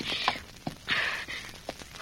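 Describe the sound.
Horse hooves clip-clop as a rider urges the horse away in a radio drama. A few uneven, fairly faint hoof thuds mix with short bursts of scuffing hiss.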